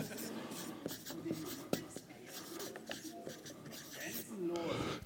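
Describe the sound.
A pen scratches out handwriting on paper in many quick, uneven strokes and rubs, with soft breathy voices murmuring faintly over the writing.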